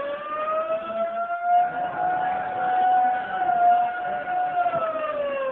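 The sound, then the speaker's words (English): Prison alarm sirens wail in a sustained, slowly wavering tone that runs unbroken throughout, loud and steady with no voices. “And suddenly the quiet routine of the prison is broken by frantic bells and the shrieking wail of the sirens.”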